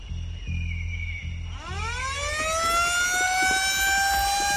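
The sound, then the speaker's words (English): A siren winds up from a low pitch to a loud, high sustained wail, following a low, pulsing rumble. “Stop them with your siren, man! Stop them with your siren!”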